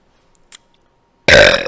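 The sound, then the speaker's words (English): A single loud, rough burp after drinking arabica coffee, bursting out abruptly and lasting about half a second, preceded by a faint short click in otherwise near silence. “Coffee gives me the burps.”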